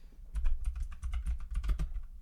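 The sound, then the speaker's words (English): Typing on a computer keyboard: a rapid, uneven run of many soft clicking keystrokes, fairly quiet and heard alone without any talking. “I just can't type now. I still can't type.”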